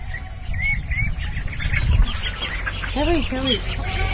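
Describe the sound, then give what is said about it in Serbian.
Ducks quack in short, nasal, harmonic calls among farmyard poultry. A clear pair of quacks stands out near the end over scattered chirps and a low, rumbling background. “Zaista su slatke. Patke su vrlo slatke.”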